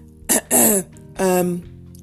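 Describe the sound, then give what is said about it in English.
A human voice imitates a fox clearing its throat with three gruff, voiced bursts. The second and third bursts are longer and louder than the first. “Clearing his throat, the fox said”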